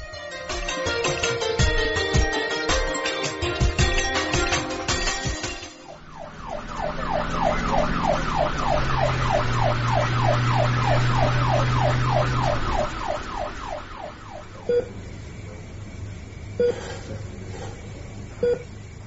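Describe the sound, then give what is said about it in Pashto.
An ambulance siren, summoned for a patient who has collapsed, wails loudly in a fast, steady warble for about nine seconds, its pitch swinging up and down in rapid cycles. A dense burst of other sound comes before it, and a few faint clicks follow. “بس سمه، ته غم مه کوه، زه همدا اوس پسې امبولانس راولم.”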